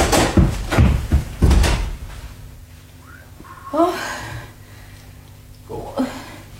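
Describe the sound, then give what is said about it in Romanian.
A door handle is turned and a door opens: a few loud clunks and rattles at the start, followed by quieter stretches with faint voices. “Iată, sunt cu mâna pe clanță.”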